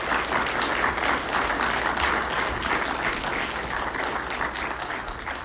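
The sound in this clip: Warm, steady applause from an audience at a morning church gathering as a guest speaker is brought up, a continuous even wash of clapping at full strength throughout.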